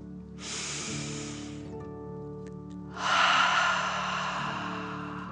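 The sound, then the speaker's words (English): Two long, deep breaths from a person during a guided breathing exercise, filling chest and belly. Each is a steady airy rush lasting over a second, with a pause between them, and the second breath is louder and fuller. “take one more deep dragon breath. Fill up your chest and belly in and out.”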